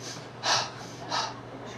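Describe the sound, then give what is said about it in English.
Exaggerated, deliberate breathing by a man demonstrating during a church sermon: two loud, forceful breaths that sound like gasps, with quiet pauses between them and no words spoken. “Do you, anyone breathe like this? I must breathe now.”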